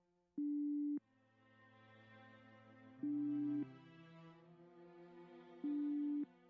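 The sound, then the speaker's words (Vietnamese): A telephone ringing over the line: three steady electronic beeps spaced about two and a half seconds apart over a continuous low tone. “Điện thoại lúc này vẫn còn đang đổ chuông nhưng không thấy Phú bắt máy.”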